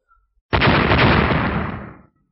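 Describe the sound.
One loud explosive boom from a fantasy battle clash between lightning-charged horns and a blood-red light. The broad, roaring burst hits sharply and fades over about one and a half seconds, alone with no talk.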